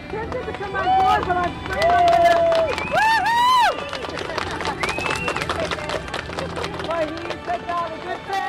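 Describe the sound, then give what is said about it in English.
A crowd cheers and whoops to welcome a boat arriving in port after a voyage of about five and a half weeks, a loud, continuous hubbub with rising and falling shouted voices throughout. “Alex Ransby has finally made it into port, and here's what the welcoming sounded like.”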